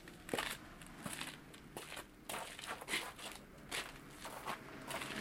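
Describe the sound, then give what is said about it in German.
Footsteps of people walking across a field: a steady series of many soft, crunching steps with light crackling, heard alone without talk. “Also gut, gehen wir rüber auf das Feld.”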